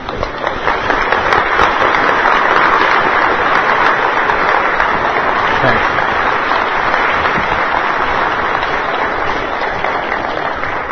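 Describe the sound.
Audience applause welcomes a speaker to the podium at a Catholic talk: loud, dense, steady clapping that holds without a break for about eleven seconds, with no voices over it.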